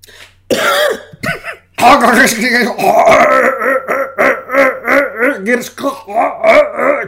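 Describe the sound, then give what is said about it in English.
Vocal throat warm-ups from one person: a rough throat-clearing burst, then a long run of loud wordless groans and hums whose pitch wavers up and down in repeated swells. “Throat warm ups.”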